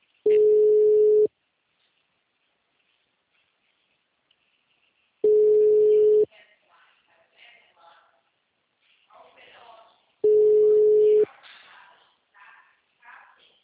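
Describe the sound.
Outgoing telephone ringback tone while calling someone: three long, steady beeps spaced evenly several seconds apart, with people talking quietly between the later ones.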